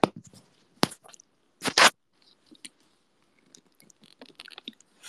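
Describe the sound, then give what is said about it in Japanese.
Swallowing sounds of someone drinking water: scattered wet mouth clicks and gulps in an irregular rhythm, with a few louder bursts among fainter ones and no talk. “水飲む音はね、鳴らしたくなくても鳴らしちゃう。”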